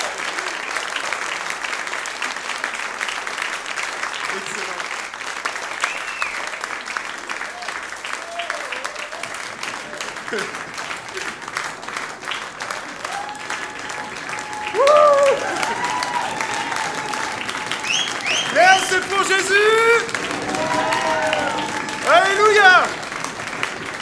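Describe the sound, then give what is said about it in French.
A church audience on its feet gives a sustained ovation of clapping and cheering during a service, with voices calling out above the dense applause, which surges louder in the second half. “est-ce que vous serez d'accord pour qu'on fasse une ovation au roi des rois ? C'est parti !”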